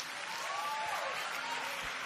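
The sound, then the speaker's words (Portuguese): Congregation applauding in church, a dense, steady wash of many hands clapping at an even level for the full two seconds. “aplauda o Senhor.”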